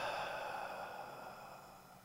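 A slow exhale during a guided breathing exercise: one soft, breathy hiss that starts at moderate level and fades gradually over about two seconds, alone with no talk.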